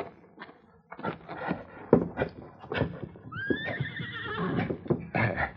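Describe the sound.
A horse tethered by a rope to a saddle horn, ready to pull a log, lets out a high, quavering whinny between scattered scrapes and clopping hoof knocks.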